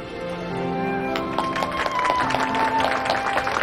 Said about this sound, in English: Dozens of onlookers applaud as the new couple continue to kiss.